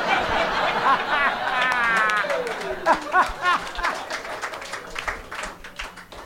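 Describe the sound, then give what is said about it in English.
Comedy audience clapping and laughing at a joke, with scattered claps and chuckles that thin out over a few seconds while a voice speaks. “You guys clap at that, but I walked on the Starbucks cop joke.”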